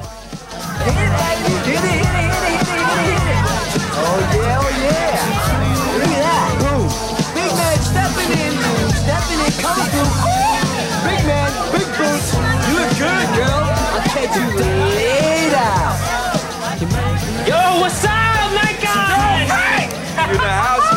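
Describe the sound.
Crowd chatter at a party: many overlapping voices form a dense, steady babble with no pauses.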